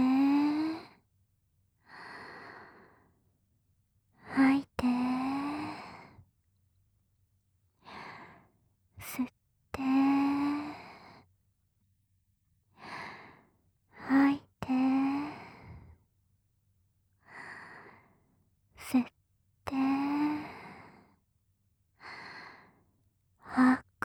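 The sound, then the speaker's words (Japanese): Deep breathing in and out, repeated many times in a slow, steady rhythm, with breathy inhalations and long, sighing exhalations separated by short pauses. “深呼吸してみよっか。はーい。吸っ”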